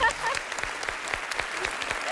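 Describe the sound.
Applause for a contestant on a quiz game show: a steady, brisk patter of many hands clapping at an even level throughout.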